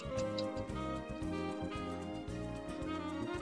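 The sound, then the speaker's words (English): A quiz countdown timer for the final five seconds, heard as a faint, steady, looping pattern of regular tonal pulses ticking in an even rhythm throughout. “I will play a timer when you have 5 seconds left. It sounds like this.”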